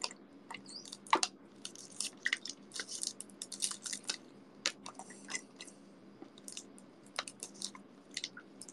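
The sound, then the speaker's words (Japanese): Quiet chewing of a soft crab omelette: many small irregular wet squishes and light crunchy bites come in uneven bursts, with short pauses between them and no voices. “ごちそうさまです。餃子の王将のカニ玉美味しい。”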